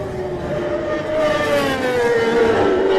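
Racing motorcycles approach on a road course near Glencrutchy Road, heard as a high engine drone that builds steadily in loudness.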